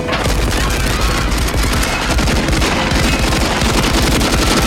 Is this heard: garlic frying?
no